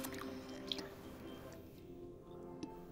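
Someone chews food while eating, producing soft, wet, squishy mouth sounds with a few small ticks and clicks. The chewing is faint and steady, with no talk.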